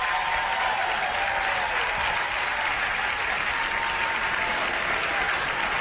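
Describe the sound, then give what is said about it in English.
An audience at the Freight and Salvage applauds as Holly Near walks onto the stage for a live concert, sustained, even clapping from many hands that continues at a constant level for several seconds. “And here she is walking out on the stage. Holly Near, live at the Freight and Salvage. You can hear the audience.”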